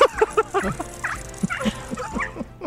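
A pug barks and yips excitedly: a quick run of short, high yaps at the start, then scattered sharp barks and whimpering whines of varying pitch, all moderately loud.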